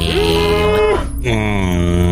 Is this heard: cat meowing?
no

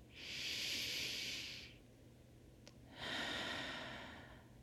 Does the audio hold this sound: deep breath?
yes

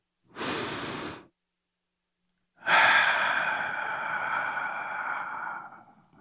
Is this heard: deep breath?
yes

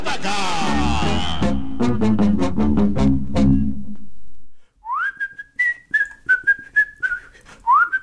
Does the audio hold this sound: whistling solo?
yes

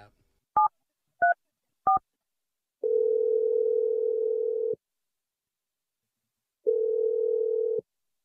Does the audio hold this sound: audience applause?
no

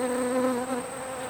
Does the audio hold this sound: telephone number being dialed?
no

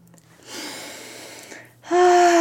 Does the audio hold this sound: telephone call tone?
no

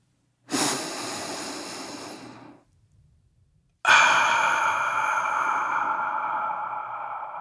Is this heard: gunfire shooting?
no

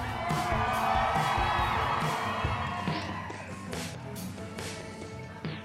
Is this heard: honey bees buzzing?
no

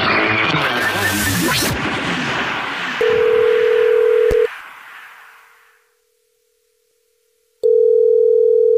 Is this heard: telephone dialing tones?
yes

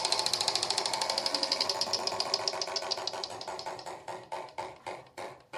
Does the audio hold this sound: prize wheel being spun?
yes

